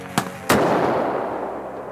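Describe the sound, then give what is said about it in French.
Two heavy cannon blasts during a First World War battle on the Somme: a sharp boom, then a louder second one that rolls into a long, slowly fading rumble. No voices. “On continue de tirer. Yeah, the cannons are still firing, that's right.”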